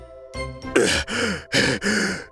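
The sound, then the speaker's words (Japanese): Heavy, voiced panting from a character slumped on the floor, worn out after singing to, watering and pruning a coral; a quick run of loud, breathy gasping exhalations with no words. “疲れ果てて床に座り込みハーハーと息を切らしています”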